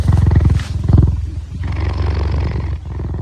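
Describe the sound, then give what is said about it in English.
Loud, deep roaring of a lion in drawn-out, pulsing, rumbling phrases with a strong harmonic growl, heard alone without voices. “some of the big cats, lions, for example, roar. But they can't purr.”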